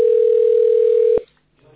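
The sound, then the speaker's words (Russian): A telephone line tone sounds while an emergency dispatch service is being called. It is a loud, steady, single-pitched hum that cuts off abruptly after about a second, leaving near silence with a faint murmur of noise. “Звоню еще, продублирую так, этот момент. Мы позвонили в аварийную диспетчерскую службу.”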